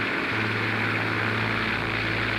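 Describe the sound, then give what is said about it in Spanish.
A failing propeller airplane engine over mountains drones loud and steady, with a low hum that shifts in tone just after the start. “Está fallando el motor. Yo estoy sobre las montañas y no puedo aterrizar.”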